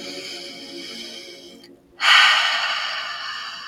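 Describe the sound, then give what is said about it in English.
A deep breath drawn in and let out: a steady hiss of air, a brief pause, then a louder rush of breath that gradually fades, with no talking. “Feels so much better to take a deep breath.”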